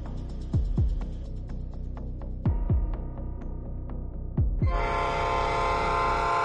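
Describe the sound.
A train pulls into a station with a steady low throb and a few heavy rhythmic thumps, then a loud broad hiss takes over for the last couple of seconds.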